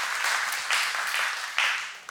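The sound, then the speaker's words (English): Church audience clapping: dense, steady applause that stays loud throughout, with a few brief swells in intensity and no clear voices. “Yeah, get a clap. Go ahead. Get it in. I like it.”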